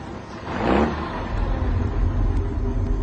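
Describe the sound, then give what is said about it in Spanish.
A truck engine rumbles as the truck drives slowly in a zigzag through snow, a steady low drone that swells briefly early on and then holds even and moderately loud. “El camión marcha lento y en zigzag, esquivando cuerpos fulminados en la nieve, autos detenidos y más muertos.”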